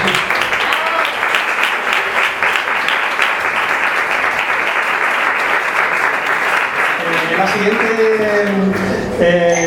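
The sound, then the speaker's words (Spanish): Audience applause at a live event honouring a guest, with dense, steady clapping that fills the whole clip at full volume. Voices rise through the clapping near the end. “Así que un fuerte aplauso para Juan Antonio.”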